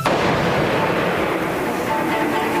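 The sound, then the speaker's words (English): A loud, sustained roar of gunfire-like blast noise fills the whole clip without a break, from a shooting at the Rijksmuseum in Amsterdam. “Where did the bullet go? I accuse you, gentlemen, of murder. They shot Hasselberg! Someone shot Hasselberg!”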